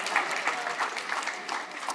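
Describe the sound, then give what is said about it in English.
A church audience gives brief applause for a tall man standing up. Many hands clap at once in a loud, busy patter that stays even throughout. “Yeah, clap for him. Way to go.”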